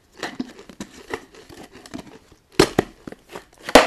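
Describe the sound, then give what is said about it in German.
Pringles potato crisps being eaten make many sharp, irregular crunches and crinkles, mostly soft, with a few louder bursts toward the end. “meine Pringles. Esse ich mal ein paar von, okay? Oh, lecker.”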